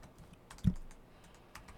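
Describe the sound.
Keys clatter on a computer keyboard as a note is typed, a few light taps with one distinctly louder keystroke standing out among them.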